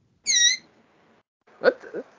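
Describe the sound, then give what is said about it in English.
A mouse squeaking: a high, wavering squeal, followed after a pause by a shorter, lower chirping burst. “What the hell? What's all that squeaking? It's a mouse.”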